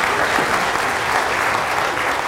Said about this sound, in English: Can we give the worship team a round of applause,